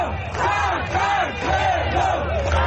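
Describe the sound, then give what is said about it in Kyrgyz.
Supporters at a political rally shout their approval together, a loud, dense roar of overlapping voices with repeated chant-like swells of cheering. “Силер кел деп чакырар замат мен жетем дегенде чогулгандар кыйкырык сүрөөм менен колдошту.”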